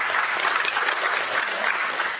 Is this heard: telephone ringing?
no